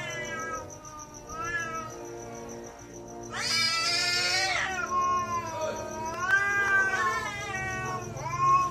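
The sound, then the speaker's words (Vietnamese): Cats yowl at night in several drawn-out, wavering wails, with a louder, harsher burst of overlapping cries near the middle and more rising, falling yowls after it. “Văng vẳng đâu đây tiếng mèo gào suốt đêm, những tiếng kêu thê thảm đến rợn người.”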